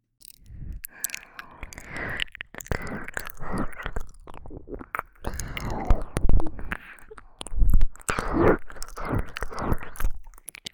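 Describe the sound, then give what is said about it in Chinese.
Wet licking and mouth sounds in an intimate erotic roleplay: many soft smacking, slurping bursts in an irregular rhythm at moderate loudness, with no talk. “小心点，我要舔上来了。”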